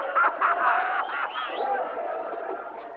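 Bird calls for a dove produced during a stage magic act: a continuous run of busy, clucking and cooing calls, fairly loud throughout, with no clear pauses.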